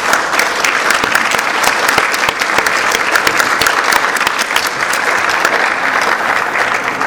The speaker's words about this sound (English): I would like one more thing to do with all the current and former Board of Directors members to stand, please, and let us give you a hand.